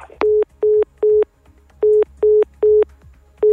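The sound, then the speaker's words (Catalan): A telephone busy tone sounds after a call drops mid-interview: seven evenly pitched beeps, steady and loud, fall in a regular on-off rhythm with one longer gap partway through. “Diria que se'ns ha tallat, bueno, suposo que ho podeu comprovar tots els oients, que se'ns ha tallat la trucada.”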